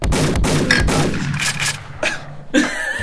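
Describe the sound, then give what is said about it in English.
Gunshot sound effect: a burst of several sharp, loud cracks at irregular intervals, each fading quickly before the next. “This is always gun sound.”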